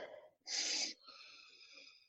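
A deep breath drawn in during a guided breathing exercise: one loud, rushing inhale, followed by a fainter, steady wheezy whistle that trails off.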